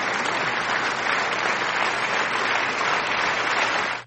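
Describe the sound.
A recorded applause sound effect: dense, steady clapping from a crowd keeps an even loudness for about four seconds, then cuts off abruptly.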